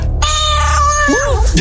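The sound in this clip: A cat meows loudly, giving a couple of short, bending meows in quick succession.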